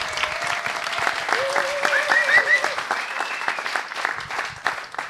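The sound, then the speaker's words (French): A live festival audience applauds in the Salle Trintignant, a sustained crowd clapping over about five seconds with voices rising above the patter. “Peut-être on peut entendre le public de la salle Trintignant.”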